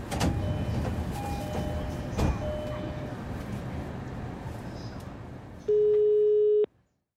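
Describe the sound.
Telephone ringing tone on an outgoing call: one steady, mid-pitched tone lasting about a second, following a stretch of rumbling background noise.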